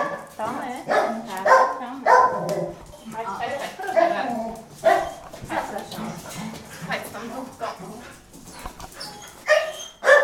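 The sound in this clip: A small, cheerful black dog with a disability gives many excited, high yaps and whimpers in irregular bursts while people talk over and between the barks.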